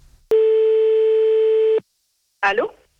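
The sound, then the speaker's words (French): A telephone tone as a call is dialed: one steady, unbroken tone holds for about a second and a half, cuts off to silence, then a brief separate burst of sound follows. “on fait le numéro de téléphone maintenant et c'est parti.”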